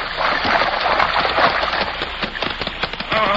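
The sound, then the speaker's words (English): Splashing, sloshing water as a horse swims steadily across to the far shore, a radio drama sound effect. The wash of water is continuous and fairly loud, with scattered sharper splatters throughout. “Come on, Silver. You're not far to go now. What a magnificent animal. Come on, Silver. And under his master's urgings, Silver swam straight for the opposite shore without faltering.”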